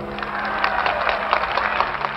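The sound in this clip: Audience applause at a political speech, greeting mentions of Republican senators Jacob Javits and Barry Goldwater: a short burst of many hands clapping over a low steady hum.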